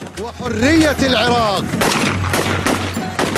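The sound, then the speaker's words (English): Rifles fired into the air by dancing men at a night-time circumcision celebration in Iraq: a raised, wavering voice comes first, then several sharp, loud cracks follow in quick, uneven succession. “Two men fire rifles into the air as they dance.”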